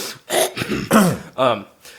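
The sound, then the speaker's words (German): Throat clearing: several rough, gravelly bursts in quick succession, partly voiced and fairly loud, with short pauses between them. “Ein bisschen räuspern.”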